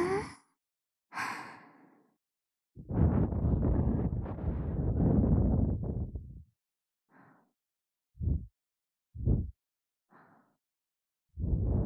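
Soft blowing into an ear: a series of breathy puffs of air separated by silence, including one long, sustained blow early on and several short, gentle gusts after it.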